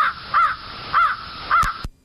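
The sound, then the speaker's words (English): A crow cawing: a few harsh, nasal caws at an even, unhurried pace, each clear and fairly loud, with quiet gaps between. “Do you know that one? That's a crow.”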